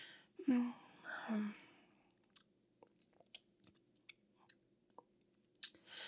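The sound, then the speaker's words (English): Soft wet chewing and crunching as a person eats food, with a couple of short vocal sounds first and then a series of small, irregular mouth clicks and bites. The sound is faint. “But I'm just gonna eat this.”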